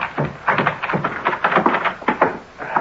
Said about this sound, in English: Open up in there. Break down the door. First I break you. Open up. Here, I've got a key. A key? Well, give it to me.